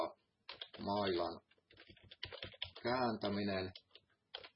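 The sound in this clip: Typing on a computer keyboard while a commit message is written, a few scattered quick clicks falling between and under a person talking.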